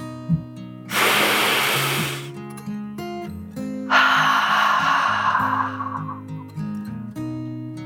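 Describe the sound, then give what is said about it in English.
A slow, deep breath for a calming children's meditation, a long airy inhale followed after a pause by a longer, softer exhale, both over gentle steady music. “With one last deep dragon breath, in and out,”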